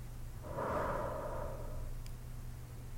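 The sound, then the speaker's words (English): A single slow, deep breath from a guided breathing exercise comes as a soft, airy rush lasting about a second and a half. It is faint over a low steady hum. “Big deep breath in. Hold. And out.”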